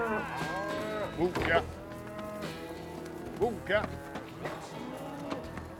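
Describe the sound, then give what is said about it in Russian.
Cattle and calves low as a rider on a bay horse drives the calves into a small pen on a pasture. Several long, deep moos overlap, with a few louder, higher calls breaking through. “На пастбище ковбой верхом на гнедой лошади загоняет телят в небольшой загон.”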